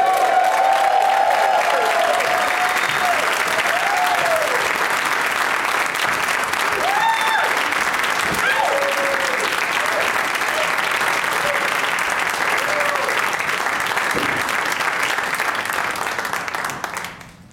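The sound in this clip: A live show audience greets the guests with enthusiastic applause: loud, dense clapping that carries on steadily for around sixteen seconds before quickly fading out.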